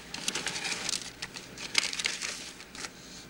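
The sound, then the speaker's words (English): Paper rustling as an envelope is handed over: quiet, crinkly handling noise with a few crisp ticks. “He hands her an envelope.”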